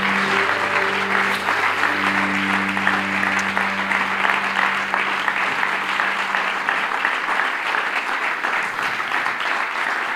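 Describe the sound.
Dense, roaring applause from a standing ovation at an ICF Salzburg event as people are welcomed onto the stage, continuing unbroken for about ten seconds, with low sustained tones beneath the clapping for the first several seconds.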